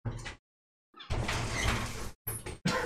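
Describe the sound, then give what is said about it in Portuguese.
A window being opened to let a cat in, heard as a few short, rough scraping bursts separated by brief silences, each fairly loud. “Eu preciso deixar a gata entrar. E dessa vez a gata não tá entrando pela porta. Ela tá entrando pela janela.”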